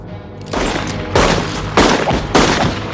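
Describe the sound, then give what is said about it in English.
Gunshots ring out in a duel: four loud, sharp blasts at roughly even intervals, each with a ringing tail that carries into the next. “Spotted Horse shoots his opponent.”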